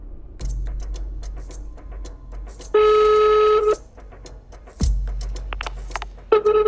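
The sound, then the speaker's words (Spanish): Telephone tones sound as a caller redials someone after a dropped call: one steady tone holds for about a second, and a second tone starts near the end, over low hum and scattered faint clicks. “Aquí la llamada se corta. Así que lo vuelvo a llamar.”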